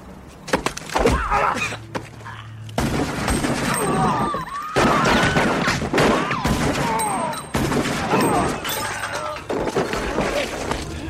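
Gunfire in a tense armed confrontation: many loud, rapid shots and bursts mixed with shattering and crashing, forming a dense, chaotic wall of noise that stays loud for the whole stretch with only brief dips.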